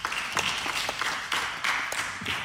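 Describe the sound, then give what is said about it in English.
A church audience gives faint, scattered applause, with sparse individual claps landing unevenly rather than in a dense roll. “Let's do a heavy round of applause for Beth.”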